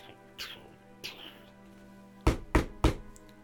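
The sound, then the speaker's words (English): Knocking at a door of a grand estate: two soft, muffled taps, then three loud, sharp, evenly spaced knocks near the end, with quiet pauses between. “simply a knock at the door now.”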